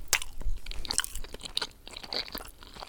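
Crunchy food being bitten and chewed for food ASMR, close and crisp: a run of sharp, irregular crunches and smacking chews with no talking.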